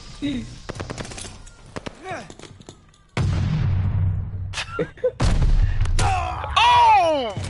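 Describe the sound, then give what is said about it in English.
Gunfire in a video game rings out in rapid bursts of sharp, crackling shots, some in quick runs like automatic fire, with louder dense stretches later on, while excited voices exclaim over the action. “Some random bitch just came and shot me in the face!”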